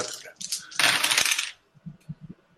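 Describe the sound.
Five dice are rolled during a tabletop game, giving a brief, bright rattling clatter that lasts under a second before it stops short.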